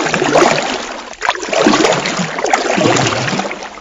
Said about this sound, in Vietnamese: quăng mạnh lên dòng cỏ rồi lật đật bơi xuồng đi.